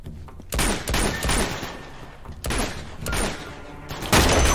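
Gunfire bursts out in a video game during a firefight. Several loud, sharp volleys of shots break out at irregular intervals over a constant noisy background.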